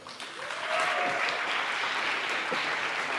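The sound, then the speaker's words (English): Audience applause welcomes a speaker at a church gathering, swelling within the first second into steady, dense clapping that stays loud and even to the end. “So, would you guys put your hands together and give a welcome to, to just one of my heroes, David Sorn?”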